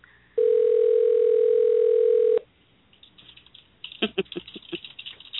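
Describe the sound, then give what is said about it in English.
A telephone dial tone rings out as a call is placed: one loud, steady tone for about two seconds that cuts off abruptly. After a quiet gap comes a flurry of quick clicks and taps. “We're going to call him. Mm-hmm. See if he's going to answer.”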